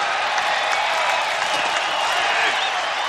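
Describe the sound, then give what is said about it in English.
Dense, steady applause and crowd noise from the stands at a 1950s Major League Baseball game, continuous clapping blended into a broad wash with no distinct single claps. “Our view moves up through the stands, filled with grinning, clapping people in 1950s clothing.”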